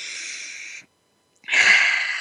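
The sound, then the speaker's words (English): Deep breaths taken together during a guided breathing pause: a long, airy, hissing breath, a short silence, then a second fuller and louder breath that fades gradually. “One more breath together.”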